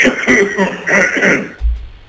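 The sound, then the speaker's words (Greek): Someone clears their throat in a short run of rough, voiced rasps that ends abruptly, standing alone without speech. “Συγγνώμη λίγο να καθαρίσω τη φωνή μου.”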